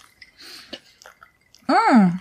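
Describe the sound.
Someone chewing cake while tasting it makes a few soft, wet mouth smacks and clicks, followed by a louder voiced hum of approval that rises and then falls in pitch.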